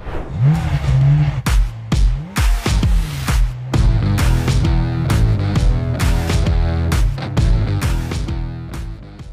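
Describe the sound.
A car engine starts and revs hard while accelerating, with a rising harmonic whine near the start and many sharp, loud bursts of revving and gear changes in quick succession.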